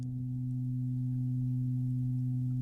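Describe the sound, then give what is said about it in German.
Synthetic background hum that gives a piece an artificial acoustic space, half eerie and half soothing. Two low sustained tones form an even, unbroken drone at constant loudness for the whole clip. “da gab es dieses Hintergrundsurren, weil wir wollten dem Stück einen künstlichen akustischen Raum geben und etwas schwer definierbares als akustische Entsprechung nehmen.”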